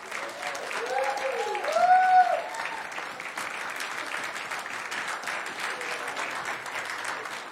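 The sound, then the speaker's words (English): Audience applause from a church audience welcoming someone forward: dense, steady clapping through the whole stretch, slightly louder near the start before settling into an even wash. “Give a big hand for Lauren Noyes.”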